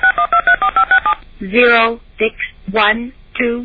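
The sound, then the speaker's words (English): Telephone touch tones dial a number: a rapid, evenly spaced run of loud, short beeps at the start, followed by a person talking. “Those were the touch tones. It dialed 0, 6, 1, 2, 3, 4, 5, 6, 7.”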